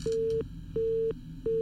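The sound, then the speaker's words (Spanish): Busy signal on a phone line after a dropped call: three steady, loud mid-pitched tone bursts in an even on-off rhythm, the last cut short, over a faint low hum with no voices. “Se cortó la llamada”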